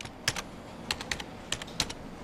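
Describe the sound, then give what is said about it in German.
Quiet computer keyboard typing as numbers are entered into a spreadsheet, a few quick irregular clusters of light keystrokes with short pauses between them. “Jetzt möchte sie den Umgang mit dem Computer lernen und tippt gerade Zahlen in eine Excel-Tabelle.”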